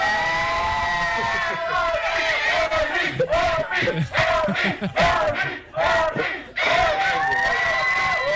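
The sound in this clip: An audience in Nicaragua cheers and shouts over a live stream, a loud crowd roar in surging bursts, with a few sharp dips between shouts toward the end.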